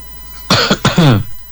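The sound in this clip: A short run of harsh, throaty coughs from a person on a call, rough voiced bursts that border on throat clearing, standing out loudly against a quiet background.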